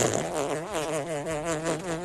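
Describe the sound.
A fart sound effect: a long, buzzy, rasping tone lasting about two seconds. Its pitch wavers and wobbles throughout at a steady moderate loudness, with no other sound.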